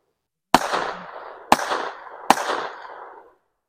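Three sharp gunshots from a rider firing a full clip on horseback during a mule trail ride, each a loud crack followed by a short decaying tail, spaced about a second apart, with no other sound between them.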